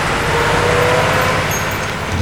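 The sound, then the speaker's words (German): Cars and a tractor driving past fast on a road, heard as a dense, constant traffic roar and rumble with no single pass-by standing out. “Denn im gleichen Moment jagte der Übertragungswagen von LA Today in Richtung Süden. Dutzende von Autos folgten ihm. Am Ende tuckerte auch noch der Traktor von Mr. Randall vorbei.”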